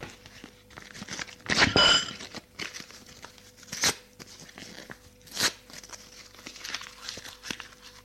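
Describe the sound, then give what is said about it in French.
A paper letter is torn up in a few ripping bursts: a long, loud tear first, then two shorter, sharper rips separated by quiet pauses. “il lui tend la lettre. Elle la prend et la déchire.”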